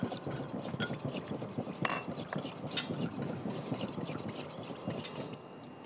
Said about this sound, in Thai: แล้วเราก็คนนะคะคนจนเป็นของเหลวก็คือไม่ให้มีขนาดที่เป็นก้อนเป็นเม็ดอยู่เลยนะคะ